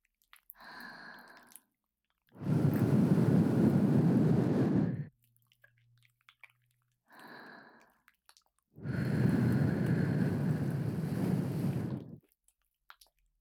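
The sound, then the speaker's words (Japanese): Soft, airy ASMR breaths blown gently into the ear, two long exhalations of about three seconds each separated by quiet pauses, each preceded by a brief soft vocal sound. “お耳にもふうしてあげましょうね。”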